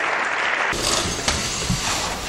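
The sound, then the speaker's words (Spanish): Loud, sustained applause in the Spanish parliament during a minute-long tribute to healthcare workers: dense, steady clapping from many hands that grows fuller after the first moment and holds evenly throughout. “a ellos dedicó el Parlamento español un minuto de aplausos.”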